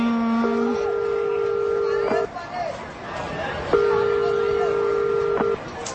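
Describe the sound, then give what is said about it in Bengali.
Ringback tone of a phone call that goes unanswered: a brief lower tone, then two long rings of about two seconds each separated by a pause, over a noisy background. “দাঁড়াও এক minute, দাঁড়াও আমি phone দিচ্ছি টিয়াকে।”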